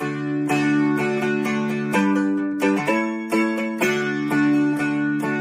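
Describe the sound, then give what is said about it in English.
Swing bar guitar played through an amplifier, strumming chords in a steady rhythm with fuller, more sustained tone. The many loud strums blend together with little decay between them, and no voices are present. “But if we plug it into an amplifier, it could sound like this.”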